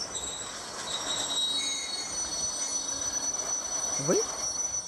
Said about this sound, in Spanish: ¿Qué es esto? El tren. Diría que nos estamos parando.